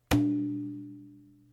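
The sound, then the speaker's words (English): A single strike on a medium-sized Remo shape drum gives a sharp attack and then a deep, ringing tone that fades slowly and evenly with no further hits. “These are the Remo shape drums. They come in all different shapes and colors. And this is a medium-sized shape drum. It sounds like this.”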